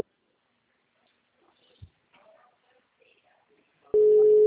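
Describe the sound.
A steady, mid-pitched telephone line tone is heard while a call is placed to someone. It starts abruptly near the end after near silence broken only by a few faint clicks and rustles, then holds loud and unbroken.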